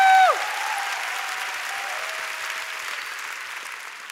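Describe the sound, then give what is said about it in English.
A church audience applauds with hand claps during a service, a dense, steady wash of clapping that holds at an even level for about four seconds. “won't you give the Lord a big hand clap”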